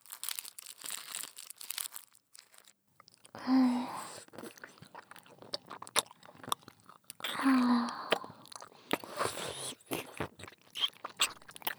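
Chupa Chups stick lollipop being eaten, with steady soft wet sucking and smacking and a few louder crunching bites standing out.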